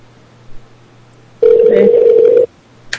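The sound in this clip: An unanswered phone call gives a single steady ringback tone lasting about a second. It sounds alone, with a faint low hum before and after it.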